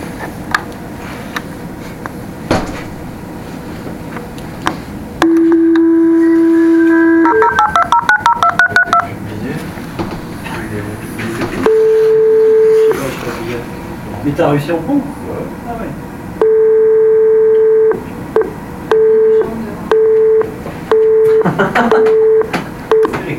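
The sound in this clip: Telephone tones from redialing after a dropped call: a steady tone, then a rapid run of keypad beeps, followed by long repeated ringing tones, with people talking around them.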